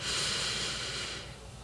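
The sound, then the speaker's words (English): A single long nasal inhale through the right nostril during guided alternate-nostril breathing in a Reiki meditation: a steady, soft, airy hiss that holds for about a second before thinning out, with no voices. “We'll breathe in through your right nostril with your right hand open. Breathe in.”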